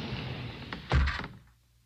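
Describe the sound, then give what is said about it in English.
A hidden wall in a candlelit gallery slides shut: a faint click, then a brief muffled rumble and thump that fades to near silence. “As Mike and Karen stepped into the room, the wall behind them slid closed.”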